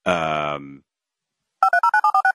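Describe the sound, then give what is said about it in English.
Telephone dialing: a rapid string of about seven short touch-tone beeps of alternating pitch. A brief sustained buzzing tone and a pause come before it. “So much dialing. There's a lot of dialing.”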